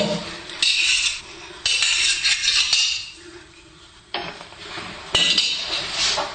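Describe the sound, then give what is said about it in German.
Knife chopping fresh herbs, wood sorrel and very young ground elder leaves, with repeated sharp knocks and scraping. Several louder clattering bursts come through, with no talking. “Ich schneide jetzt diese Kräuter mal ein wenig klein.”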